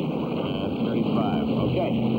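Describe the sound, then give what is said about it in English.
Aircraft engines drone steadily while they are run up on a plane heavy with ice, a dense continuous roar with a constant hum. “run the engines to 2,535 inches.”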